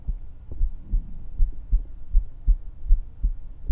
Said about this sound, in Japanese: どう？ドキドキ聞こえるかな？